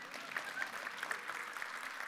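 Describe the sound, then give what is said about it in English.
An audience claps in a soft, steady patter of many hands that keeps an even level across the whole stretch. “You can clap for that. That's fine.”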